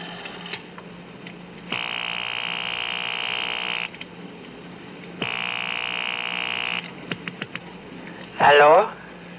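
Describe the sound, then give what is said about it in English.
A telephone ringing tone heard through a payphone receiver on an outgoing call: two long, steady rings with a pause between them, then a few clicks and a brief voice answering. “I had a phone call to make, the number I'd gotten off the card at Rothman's just before I'd been picked up. There was a payphone at the gas station on the corner.”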